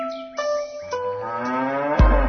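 A cow moos in a deep, drawn-out tonal low whose pitch shifts as it goes, broken by a couple of short breaks and ending in a sudden burst of noise.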